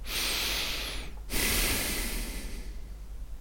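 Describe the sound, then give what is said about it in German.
Deep breathing into a small headset microphone on a boom arm, set about four fingers beside the mouth: a long hissing inhale, a brief break, then a long blowing exhale that fades, over a steady low hum. “Jetzt spreche ich über dieses Mikrofon, das etwa 4 Finger seitlich vom Mund entfernt ist. Ich atme jetzt mal tief ein und aus, um die Blasgeräusche zu hören.”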